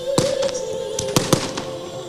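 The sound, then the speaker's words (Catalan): Small fireworks crackle to close the Sitges Carnival 2020, a few sharp pops in quick succession over a steady background hum, with the loudest bursts bunched together near the middle. “que és la habitual també part dels focs, petits focs artificials, que donaran per tancat de manera solemne el Carnaval de Sitges 2020.”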